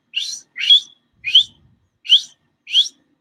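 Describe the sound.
A voice imitates a wild cat cub's whistle-like call with five short, high, clear whistled chirps, evenly spaced and fairly loud, with no other voices.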